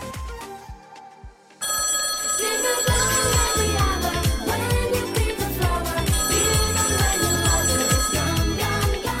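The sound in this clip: A telephone rings for an outgoing call, its bright bell-like tones mixed into a loud, busy musical backing with steady percussion that starts after a quieter opening.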